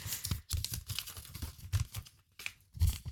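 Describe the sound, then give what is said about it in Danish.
A paper slip being drawn from a pile: many short bursts of rustling, crinkling paper in an uneven rhythm, fairly soft. “Jeg trekker første lapp.”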